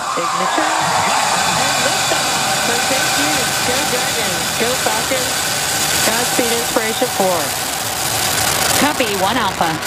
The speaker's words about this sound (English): The Inspiration 4 flight aboard the SpaceX Dragon capsule Resilience launched on a Falcon 9 rocket from Pad 39A at the Kennedy Space Center in Florida.